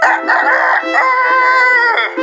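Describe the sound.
A rooster crows once, loud and drawn out, with a harmonic, slightly bending call lasting about two seconds and no other sounds.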